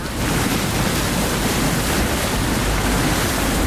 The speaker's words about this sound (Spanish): Hoy te mando la postal sonora desde la cubierta de un yaúd.